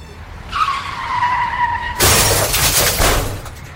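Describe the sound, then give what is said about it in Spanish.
A car skids with a long, slightly falling tire screech, then crashes with loud shattering glass that rings on for well over a second. “¡Mira lo que has hecho! ¡Nos has estrellado!”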